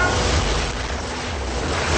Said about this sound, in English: Murtaugh and Leo surface splashing. The boat starts to sink.